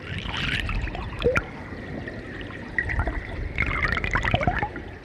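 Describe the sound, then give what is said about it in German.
Flowing water recorded with an underwater microphone gives a dense, rhythmic mix of gurgles, knocks and bubbling clicks over a steady hiss. The sounds come in busier bursts near the start, the middle and the end. “Und das ist natürlich mit einem Unterwassermikrofon aufgenommen. Also das Mikrofon ist im Wasser da.”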